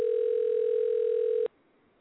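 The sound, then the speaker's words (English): A telephone dial tone sounds while a call is placed, one steady, unbroken hum that holds level for about a second and a half before cutting off abruptly into near silence. “We dialing Bianca. Hopefully she answers.”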